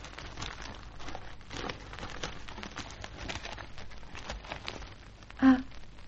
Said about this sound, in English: Well, something to show you. All right to unwrap it on this table?